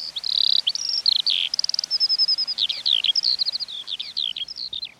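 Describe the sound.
Skylark song pours out as a continuous, rapid, high-pitched warble, a run of varied chirps, trills and slurred notes with only tiny gaps, clear and alone.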